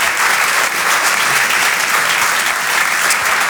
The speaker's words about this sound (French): Vous pouvez l'applaudir très très fort, Flora Amara sur Rire et Chanson.